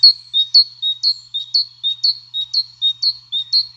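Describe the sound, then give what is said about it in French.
A great tit sings its clear, high-pitched song, a rhythmic run of alternating two-note phrases repeated many times at an even pace. The song is loud and crisp against near silence, with no other sounds. “Et tout de suite, je propose de vous faire écouter le chant de la mésange charbonnière.”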